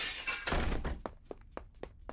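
A vase smashes with a broad, noisy crash, followed by several bright, separate clinks as the pieces fall and settle.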